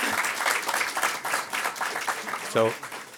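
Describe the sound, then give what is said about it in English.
Audience applause at an economics lecture on the theory of interest, a dense patter of clapping that runs throughout, with a brief voice near the end. “So those very appropriate applause go only to my wife.”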